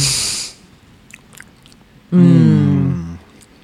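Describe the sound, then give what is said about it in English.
A bite into a soft brownie, fresh from the oven, made with dark, milk and white chocolate chips and cocoa powder. A brief muffled bite and a few faint mouth clicks come first, followed by a voice humming in appreciation. “They have dark milk and white chocolate chips in them and cocoa powder. Whoa. So it's kind of like quadruple brownies. Jeez. I know, right. They're really good. I'm going to take a little bite right now for the audience.”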